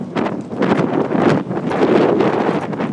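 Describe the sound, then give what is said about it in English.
Strong wind blowing outdoors, a loud, continuous buffeting roar that batters the microphone in uneven gusts, rising and dipping in strength throughout with no voices. “It's like wading through treacle in this wind.”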